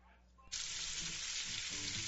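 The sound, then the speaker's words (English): Pork sizzles as it fries, a bright, steady hiss that starts abruptly after a brief quiet moment and continues loudly to the end, with a few soft low knocks underneath. “Sizzle, smoke, flavor you don't forget.”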